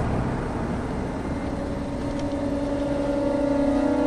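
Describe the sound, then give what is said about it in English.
A commander's SUV drives up among soldiers, its engine a steady, even drone with a constant low hum and a few held tones, level in loudness throughout with no talk. “The soldiers turn away from him and watch the commander's SUV drive up.”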